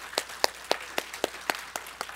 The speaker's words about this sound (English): How many of you are great-grandmothers in here, by the way, today? Raise your hands real high. Let's applaud them.